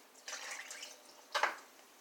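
A blended yeast-and-water mixture is poured into a bowl of flour, making a soft, steady splashing pour and then a brief louder splash near the end, with no talk.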